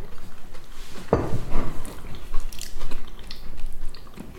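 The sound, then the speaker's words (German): Crunchy gluten-free crumble with tiny streusel bits being bitten and chewed, giving a few crisp, faint crunches over low mouth noise. “Oder mit den glutenfreien Crumble kann man gut voll essen, oder? Vor allem dadurch, dass hier so auch teilweise so ganz klitzekleine Streuselchen drin sind, ist immer so einen leichten Crunch.”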